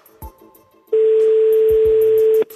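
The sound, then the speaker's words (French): A telephone ringing tone after a number is dialed: a single steady, mid-pitched tone that starts after a quiet opening, holds for about a second and a half, then stops abruptly. “On compose le numéro. Ça sonne”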